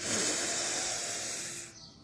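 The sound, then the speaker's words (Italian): A deep, noisy breath taken during a breathing exercise: one long airy rush that holds steady for nearly two seconds, then fades out. “E inspirando dal naso ed espirando dalla bocca, ti invito a fare 3 respiri profondi, anche rumorosi.”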